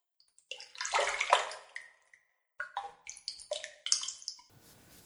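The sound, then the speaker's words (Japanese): Water splashing and sloshing as someone gets into a hot bath: a long burst of movement, then a string of shorter splashes and drips, with no talk. “もうお湯に入っていいの？よかった。”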